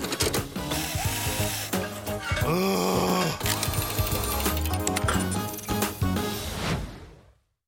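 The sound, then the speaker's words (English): A futuristic quantum power wrench at work: dense, continuous mechanical whirring and ratcheting with groaning, warbling tones that swell and shift before cutting off abruptly. “You can even borrow my quantum power wrench to get started.”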